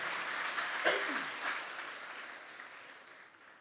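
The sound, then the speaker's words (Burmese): Congregation in a church clapping hands in praise, a soft, steady wash of applause that slowly fades, faint throughout. “ထိုယေရှုဖရာလက်ခုပ်တီးလက်ကျွန်တော်တို့ဂုဏ်ပြုကြရအောင်”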